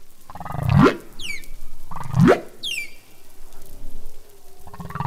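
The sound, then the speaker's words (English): Recorded humpback whale song: two deep, rising moans, each followed by a quick series of high, descending chirps, then softer wavering tones as the phrase continues. “So humpback song is composed of multiple different sounds, but it's how they arrange them each year that changes. I want to play a clip of one of the songs here.”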